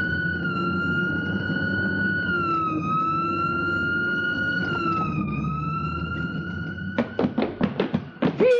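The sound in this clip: Police car siren in a radio drama: a loud, sustained wailing tone that wavers slowly in pitch, followed near the end by a quick series of sharp thuds.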